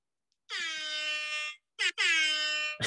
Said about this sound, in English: There it is. There, here we get it. Yeah, all the air horns for Brad.